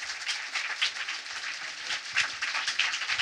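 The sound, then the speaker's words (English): Live audience applause at a show in Berlin, a fairly faint, uneven spatter of clapping with separate hand claps standing out as it pulses on without voices. “That's how you know the applause is good, is when you have to check to make sure your microphone is on, because the crowd was so loud.”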